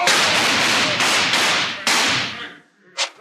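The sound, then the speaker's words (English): Gunshots in a Western gunfight scene: a few loud, sharp cracks in quick succession, each trailing into a noisy decay, then a fainter short snap after a brief pause. “Scramble, you waddies! There's gonna be gunplay!”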